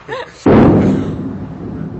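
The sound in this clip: Artillery fire on a town: one heavy, sudden blast that booms low and rumbles as it fades, right after a brief voice.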